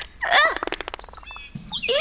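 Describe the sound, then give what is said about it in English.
A small bird chirps in a quick run of short, bright tweets, with a few sharper calls around them. “That's right, little birdie.”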